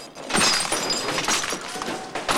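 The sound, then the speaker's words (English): A hammer smashes a car radio out of the dashboard with a dense, continuous clatter of cracking and breaking, loud throughout with sharp bursts of impact. “gets a hammer and smashes the radio away from the dashboard.”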